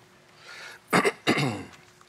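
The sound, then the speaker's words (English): A preacher coughs and gags during a church sermon: two harsh, throaty bursts in quick succession, loud against a quiet background. “Excuse me here. I'm so sorry. All right, I'm gagging,”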